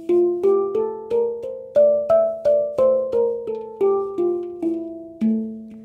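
A hang drum played melodically: a steady run of many clear, ringing harp-like notes, each struck and left to ring, stepping through a tune before settling onto a lower closing note, with no voices.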